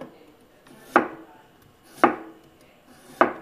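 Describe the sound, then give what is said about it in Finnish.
Three evenly spaced knife strokes slice through new potatoes. Each is a crisp, sharp thud, and the gaps between them are quiet. “Esimerkiksi suomalainen peruna, uusi peruna, sekin voi käyttää. Tosi hyvä makuinen tulee. Eli sä leikkaat ne ihan tällaisiksi viipaleiksi.”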